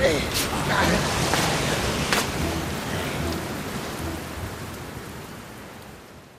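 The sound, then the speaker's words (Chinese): Heavy rain pours down and floods into a car, a dense, steady hissing roar that stays loud at first and then gradually fades away. “哎呀，车里进水了。 哎呀， 哎呦呦！ 阿峰哥的腿被雨水打湿了，来来来，穿上雨衣”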